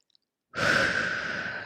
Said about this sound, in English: Let's all take a deep breath